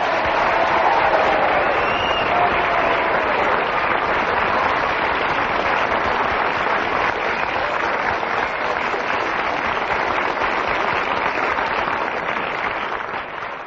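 A studio audience at a comedy panel game show applauds the winner, a loud and sustained wash of many hands clapping that holds steady and eases slightly at the end.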